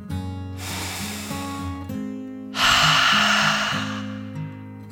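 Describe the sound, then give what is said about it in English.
A deep breath in and then out over soft, gentle background music. The airy inhale comes first, followed by a louder, longer exhale that slowly fades. “Take a deep dragon breath in and out.”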